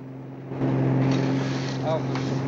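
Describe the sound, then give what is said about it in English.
Motor drone of a boat cruising along the coast after leaving the harbor, a continuous rushing engine noise with wind and water hiss that swells louder after the first half second and stays steady. “The boat leaves the harbor and cruises along the coast.”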